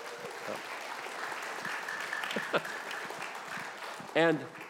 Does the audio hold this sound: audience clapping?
yes